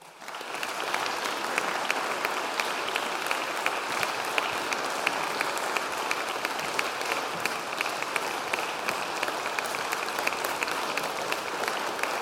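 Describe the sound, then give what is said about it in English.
Audience applause welcoming a speaker to a talk in Berkeley, California, a dense, crackling wash of clapping that starts abruptly and stays level for about twelve seconds, with no voices over it. “Please give a warm welcome to Chris Hedges.”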